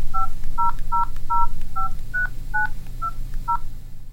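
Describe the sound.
Telephone keypad tones dial a saved number: nine short, clear two-tone beeps in a brisk, slightly uneven sequence over a low steady hum, with no talking.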